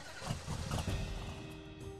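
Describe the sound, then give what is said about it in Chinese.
Low engine rumble of a car starting to move in a highway traffic jam, a steady, loud, dense drone with no clear peaks or voices. “前面的车子好像开始动了”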